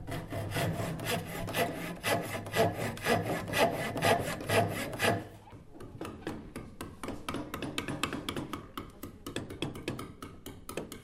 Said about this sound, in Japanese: 今は木の作品を作るワークショップを行っているので、いろいろな木を使っていますが